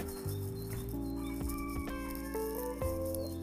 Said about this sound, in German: das war der Hahn